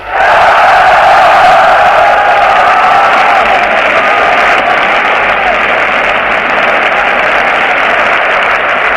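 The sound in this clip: Loud roar of a massed crowd cheering and applauding at a political rally, a dense, steady wall of voices and clapping that holds at full strength throughout.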